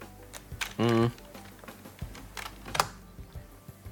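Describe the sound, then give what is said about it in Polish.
Computer keyboard keys pressed for a screen reader's Insert+1 shortcut give a few scattered, sharp clicks, with a brief flat-pitched voice-like sound near the start. “pomocą klawiatury NVDA pod skrótem insert 1. Naciskam pierwszy joystick.”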